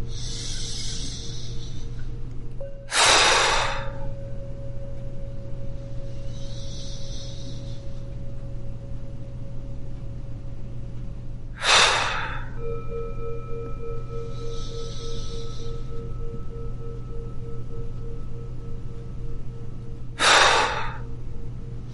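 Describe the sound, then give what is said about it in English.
Three heavy, forceful exhalations during a breathing exercise, each a short, sharp breathy burst spaced several seconds apart over a steady low hum and faint sustained tones. “Let's take a three heavy outburst breathing out.”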